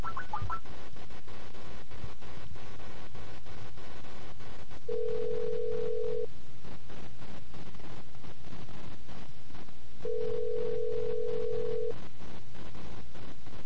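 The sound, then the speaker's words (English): A telephone call rings through to a weather forecast line: two long ringback tones sound several seconds apart over a steady line hiss. “This next number here is the National Weather Service Local and Extended Forecast, and it's probably going to be kind of similar to the other one that we called a second ago.”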